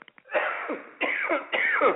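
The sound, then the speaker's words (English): Three rough, raspy coughs from a person presenting a golf news report, coming in quick succession and fairly loud, with a few faint clicks just before the first. “I'm so sorry for coughing.”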